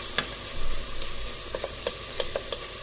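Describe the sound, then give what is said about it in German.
Bacon sizzles gently in a pan as its fat renders without browning. The hiss is steady and fairly faint, with scattered small crackles and pops and no talking. “Ruhig ein bisschen angehen lassen, aber nicht braun, aber der Speck sollte schon und ausgelassen sein.”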